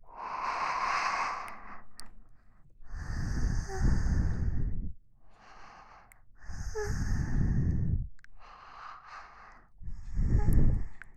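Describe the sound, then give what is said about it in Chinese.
Heavy panting breaths come in a slow run of several long, rushing exhales and inhales, each loud and breathy with a low rasp, separated by short quieter gaps. “听着喘息声”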